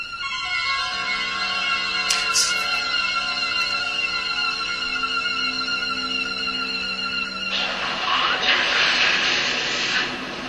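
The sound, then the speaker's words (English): Jet aircraft engines roaring on an aircraft carrier in old film stock footage: a loud, steady roar with high whining tones that swells into a harsher, broader rush near the end. “USS Enterprise aircraft carrier. This is stock footage, I presume.”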